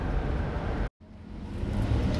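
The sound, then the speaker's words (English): Truck passing on a snowy evening road in Reno, Nevada, heard as a steady broad roar of road noise that drops out briefly partway through and then swells a little toward the end. “Ah, truck's gonna pass me.”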